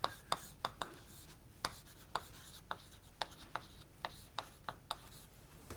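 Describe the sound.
Handwriting during a lecture comes through as a faint, irregular series of many short, sharp strokes and taps with quiet scratchy rubbing in between.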